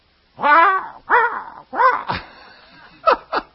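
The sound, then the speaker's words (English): Crows caw in several harsh, raspy calls. The first few are longer and louder, and two short clipped caws follow after a brief pause. “I hate the sound of crows. They wake me up in the morning, and they're so loud.”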